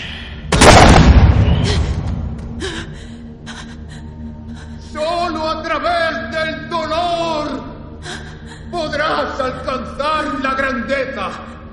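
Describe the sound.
A shotgun blast rings out once, loud and sudden, in a dark corridor during a tense confrontation, and raised voices follow.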